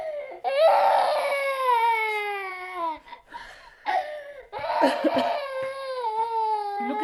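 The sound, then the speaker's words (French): A female voice cries with long, wavering wails that slide downward in pitch, broken by gasping, choked sobs between bursts. “Vous voyez, elle n'arrête pas de pleurer.”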